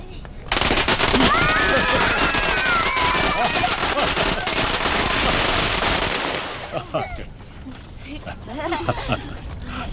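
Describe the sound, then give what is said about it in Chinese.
A string of firecrackers goes off in a fast, continuous crackle of sharp bangs, loud and unbroken for several seconds before it stops abruptly. Voices follow. “你们怕不怕点鞭炮啊？ 不怕， 不怕。 好，都是小英雄啊，来，我点了啊。”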